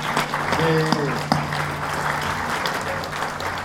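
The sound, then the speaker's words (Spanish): Audience applause at a gathering of a popular urban movement in Mexico: loud, dense clapping that continues throughout, with voices heard over the clapping near the start. “Por eso vamos a darnos un aplauso”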